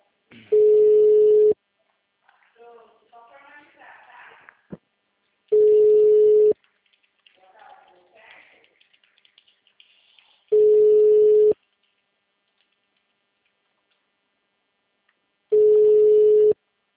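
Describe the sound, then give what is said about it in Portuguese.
Phone ringing tones as a call goes to voicemail: four loud, steady, identical beeps, each about a second long and evenly spaced, with faint muffled voices between the first three. “eu tô tentando te ligar aí, só que você está caindo na caixa de mensagens. Será tarifado após o sinal.”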